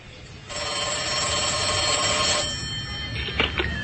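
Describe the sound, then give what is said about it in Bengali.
A telephone rings as a call is placed from home: one steady ring of about two seconds over a constant background hiss, followed by two faint, brief clicks. “বাসায় এসে ধ্রুব phone করল ফারুক সাহেবকে।”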